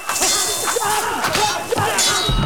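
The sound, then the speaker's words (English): Metallic sword clashes and swishing strokes from a katana fight against a group of masked swordsmen, with several bright ringing clangs and quick whooshes in rapid succession. “dispatching foe after foe with her Hanzo blade. She knocks one 88's sword out of his hand”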